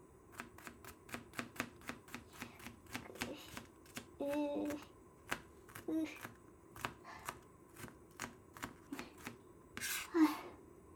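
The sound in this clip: Knife finely chopping an onion on a board: many crisp, steady taps in an even rhythm, with a few brief scraping and rustling sounds between them.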